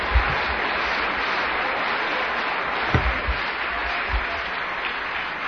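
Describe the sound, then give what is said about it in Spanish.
An audience claps loudly at a church sermon, producing a thick, sustained wash of applause at an even level, with a few dull low thumps poking through. “Dele fuerte el aplauso.”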